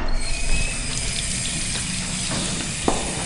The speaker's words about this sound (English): We've got this little, comes out of the spigot liquid soap here. Okay, I should be clean.